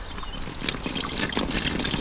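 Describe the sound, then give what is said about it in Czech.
Water trickles and gurgles steadily from a forest spring in a small valley, a continuous bright babbling with no voices. “A je to voda, která vytéká z takzvané Vlčí studánky.”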